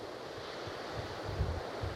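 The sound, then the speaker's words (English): Strong wind blows among pines and oaks as a steady, broad roar with low, rumbling gusts that swell slightly toward the end. There is no talk. “The wind is blowing very strongly.”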